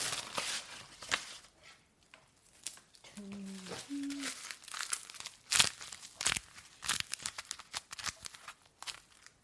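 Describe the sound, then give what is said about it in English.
Tape being pulled off a roll and torn: irregular crinkly rasps and sharp crackling bursts come in uneven clusters, with a few brief tonal squeaks in the middle. “Tape sound. The tape sound.”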